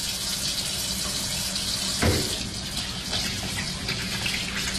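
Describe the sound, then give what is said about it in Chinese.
Running clean water rinses chicken feet and pig trotters: a steady, loud, hissing rush continues throughout, with one brief heavier splash partway through and no talk. “反复用清水冲洗，直到把鸡爪和猪脚都洗到洁白。”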